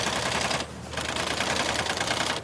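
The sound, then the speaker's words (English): A triple needle sewing machine in a boot factory stitches rubber bottoms to the leather uppers of hunting boots. It gives a loud, rapid, continuous mechanical clatter that breaks off once briefly before resuming. “runs a triple needle sewing machine that stitches the rubber bottoms to the top leather part of the boot”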